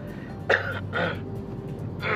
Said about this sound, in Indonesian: Aduh batuk gua.